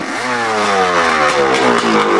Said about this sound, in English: They have a propeller, they're using a motorcycle.